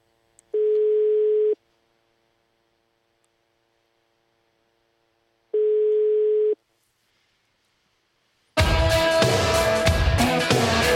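A telephone line's ringing tone on an incoming call: two steady one-second beeps about five seconds apart with silence between, then loud music abruptly starts.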